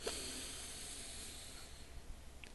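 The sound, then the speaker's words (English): A slow, deep inhaled breath during a guided breathing exercise, a soft, steady airy hiss that stays faint throughout. “And being aware of it, we take a deep breath, again in”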